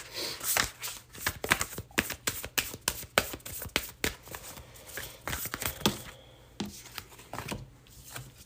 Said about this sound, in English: And I'm going to pull all of these cards and then put them all together.